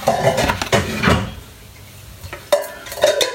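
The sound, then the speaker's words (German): A bowl is taken out of a kitchen cupboard with the help of a stool: a few clinks and knocks of crockery, a quieter pause, then more clattering. “Einen Hocker, um damit äh, die Schüssel aus dem Schrank zu holen.”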